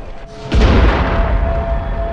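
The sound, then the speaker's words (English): A vehicle explodes in the distance amid street rioting and fires in Tottenham: a sudden deep boom swells into a loud, sustained rumbling roar that lingers to the end. “A vehicle explodes in the distance.”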